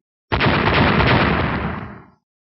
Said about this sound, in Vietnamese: Ngọn lửa cuồn cuộn chạy dọc theo vách đá của động quật phát ra âm thanh ầm ầm cực lớn.